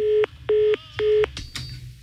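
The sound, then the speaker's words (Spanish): Telephone keypad tones while someone dials a number that isn't working: three short, evenly spaced electronic beeps of the same pitch, followed by faint rustling. “A ver, lo voy a marcar otra vez.”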